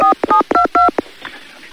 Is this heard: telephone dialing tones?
yes